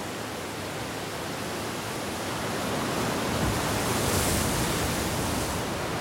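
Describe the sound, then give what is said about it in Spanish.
Waves break forcefully on the little wet sand left in a cliff inlet, a steady roaring wash that swells slightly in the middle and then eases, with no voices. “Las olas rompen con fuerza sobre la poca arena húmeda que queda en el entrante del acantilado.”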